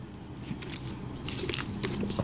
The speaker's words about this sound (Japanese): さあ、時刻は午後4時を回りました。まずはお水を一口飲みましょう。